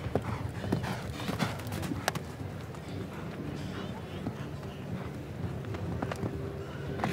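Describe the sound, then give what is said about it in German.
Horse hooves clip-clop steadily through a show jumping round, with many rhythmic hoofbeats and sharp impacts over a constant background of murmuring voices. “Er reitet hier mit Vernunft, besonnen über diesen zweiten Umlauf hinweg.”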